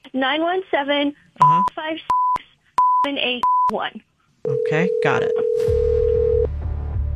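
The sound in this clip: Telephone tones: short, clear beeps of the same pitch come between bursts of talk, then a long steady tone holds for about two seconds and gives way to a low hum.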